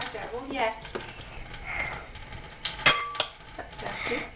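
A pan and a big bowl clatter as they are handled by a kitchen sink, with a few sharp clinks of metal and crockery over softer scraping and rustling.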